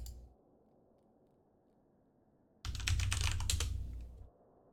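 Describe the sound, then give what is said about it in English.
Typing on a computer keyboard: after a quiet stretch, a rapid flurry of many crisp key clicks lasts under two seconds before stopping abruptly. “And I'll type that out so y'all know how it's spelled.”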